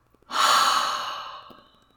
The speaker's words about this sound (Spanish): Inhalando profundamente. Retenemos, retenemos, retenemos, retenemos. Y exhalamos por la boca.